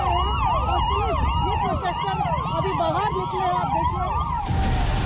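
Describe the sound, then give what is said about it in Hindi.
Police sirens wail at a city crossing in New Delhi during a protest, several loud overlapping sirens rising and falling in pitch, ending in a burst of broad noise. “कर्तव्य पथ का चौराहा है जहां आपको सिर्फ police के siren सुनाई देंगे”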